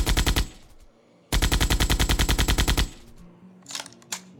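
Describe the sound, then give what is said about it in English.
.50 caliber machine gun firing from a rooftop in a military setting: a short burst of heavy, rapid thumping rounds, a brief pause, then a longer sustained burst at a steady rate, loud and without voices. “Fire up the 50 cal.”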